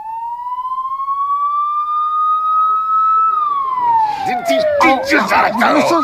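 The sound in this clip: A police car siren wails in a long rising tone that holds steady, then slides down in pitch as a voice shouts loudly over it.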